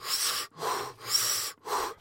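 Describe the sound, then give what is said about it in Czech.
A man draws deep, audible breaths, four loud breathy bursts in quick succession with brief gaps between them, rough and airy, alone with no talking. “Teď se musím na chvíli nadechnout, abych mohl popsat, co se potom stalo.”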